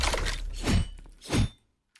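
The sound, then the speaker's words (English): A video game gun fires laser shots, a few sharp, crackling electronic bursts with a shattering edge, evenly spaced and loud, ending in silence. “the gun sound sounds like a laser gun straight out of Star Wars.”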